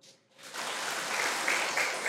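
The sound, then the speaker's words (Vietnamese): An audience applauds at a Buddhist teaching talk for lay followers. The clapping swells from a brief quiet start into steady, dense, even applause that continues to the end without voices. “Tại sao vỗ tay?”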